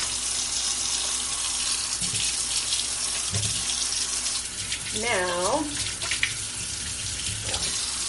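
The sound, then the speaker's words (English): Tap water runs steadily as hands greasy from handling fatty dough are washed under it, making a constant bright, hissing splash throughout with small shifts as the hands move through the stream. “I'm going to wash it my hands again.”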